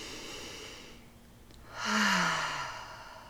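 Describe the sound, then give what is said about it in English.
A single deep breath is drawn and released as a sigh: a soft, airy rush that swells and then fades, with a faint voiced tone dropping at the end. It is quiet and heard alone. “Take deep breaths. Take a deep breath right now.”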